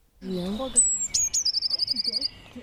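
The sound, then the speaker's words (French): Blue tit singing: a high, thin whistled note, then a rapid trill of many quick repeated notes that holds a steady high pitch. “Ça, c'est la mésange bleue.”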